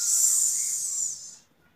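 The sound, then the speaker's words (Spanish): A voice imitates a snake's hiss by exhaling air: a single steady, high, breathy hiss that holds for over a second and then fades out. “o podés hacer la viborita y sacas el aire haciendo”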